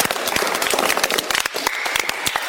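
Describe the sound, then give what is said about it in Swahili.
Clapping fills a church as the audience applauds, a loud, dense stream of sharp hand claps that keeps up steadily throughout. “Wow, mpigeni makofi.”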